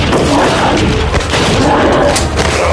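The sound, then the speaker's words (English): Gunfire in a shootout forms a dense, continuous barrage of loud booming shots that run together with no clear gaps. “I'll help you keep them at bay. Less talking, more shooting.”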